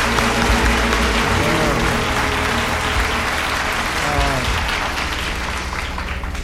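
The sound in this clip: A live audience cheers and applauds in a steady, dense wash of clapping and whoops that stays loud throughout before easing slightly at the end.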